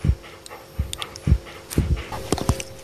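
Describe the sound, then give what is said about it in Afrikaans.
A dog panting in the heat before being shaved with clippers, short breathy pants repeating at an uneven rhythm, each a brief huff of air. “Maar hierdie hond, hygend in die baie se hitte, wil geskeer word.”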